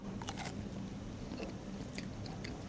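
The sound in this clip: Biting into a raw, young cultivated mushroom with its gills still closed, giving a few quiet, crisp crunches followed by soft chewing.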